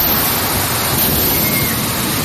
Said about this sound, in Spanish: esta es la lluvia y el viento que cayeron anoche en Castellón